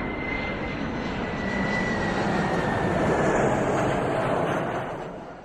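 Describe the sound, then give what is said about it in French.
An airplane passes overhead with a steady, broad engine roar and a thin whine above it. The roar holds evenly for about five seconds, then fades toward the end. “Attends, regarde! Un avion! Tu vois?”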